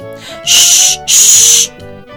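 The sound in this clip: Two loud, sharp hisses, a voice imitating soda fizzing into a glass, each lasting about half a second with a brief gap between them, over faint tonal music.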